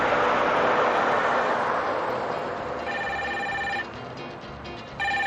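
A telephone rings in a dramatized Italian scene, an electronic ring heard in two bursts: the first follows a fading wash of broad noise, and the second cuts in at the very end.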